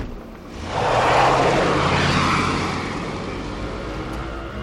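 A taxi car speeds off in pursuit: its engine roar builds quickly, peaks loudly, then eases back into a steady, fading drone.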